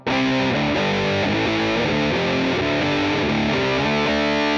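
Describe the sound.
A distorted amp tone plays through a speaker cabinet with new DSP modelling: loud, sustained and steady, with chords changing every fraction of a second throughout, and no talking.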